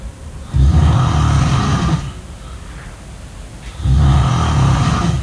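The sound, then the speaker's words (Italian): Snoring comes in two loud, rasping breaths with a quieter pause between them, each a deep, rumbling snore that holds steady before cutting off. No voices are heard. “non sono io che sto russando, vero? Non mi hai registrato di nascosto.”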